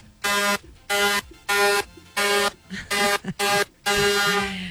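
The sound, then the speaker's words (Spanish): A string of buzzy, harmonic horn blasts from a handheld horn, mostly short and evenly spaced, ending in one longer, sustained blast; loud and clear with no talk. “Pitos que yo tengo aquí. Suena largo y tendido.”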